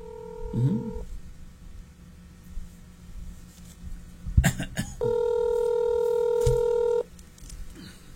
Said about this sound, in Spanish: vamos a marcar si lo pueden atender, vamos a ver, quizá está trabajando